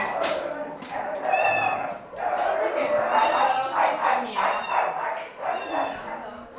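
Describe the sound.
Five young puppies, gathered from children playing on a street among houses and shacks, yelp and whimper in high-pitched, overlapping bursts while people talk.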